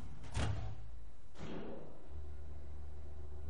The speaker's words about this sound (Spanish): La puerta se cierra.